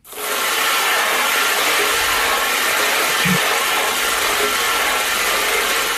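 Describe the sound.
Lottery balls spinning in a ball machine make a dense, steady clattering rattle. It stays loud and continuous for the whole clip, with no talking.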